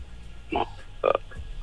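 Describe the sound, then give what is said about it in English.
A burp breaks into a quiz game as two short, low, guttural bursts about half a second apart, the second longer and louder, over a faint background hum. “Did you just burp?”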